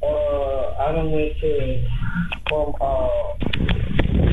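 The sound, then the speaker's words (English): Muffled, thin voices and rustling come through an accidental pocket-dialed phone call picked up on air, with a few sharp clicks and knocks breaking in toward the end. “Did we just get butt dialed? I think so, man.”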